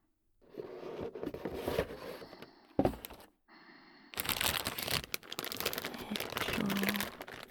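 Parts are unpacked from a box with crinkling packaging: quiet, irregular rustles and crunches, a sharp crack near the middle, a brief lull, then louder, busier crinkling and scraping that continue to the end.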